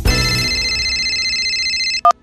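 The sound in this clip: A telephone rings after someone redials a call: a steady high electronic tone holds for about two seconds, then a short beep follows.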